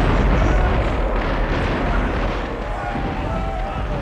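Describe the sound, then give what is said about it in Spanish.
Cannon fire from a sailing warship's broadside at the Battle of Trafalgar, a loud dense rumbling roar of overlapping blasts with no gaps, slightly easing toward the end. “Ahora el bucentauro dispara también por el otro costado.”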